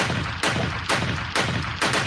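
Gunshot sound effect, a rapid, regular series of loud, sharp shots spaced about half a second apart, each a harsh full-bodied crack with a brief trailing decay.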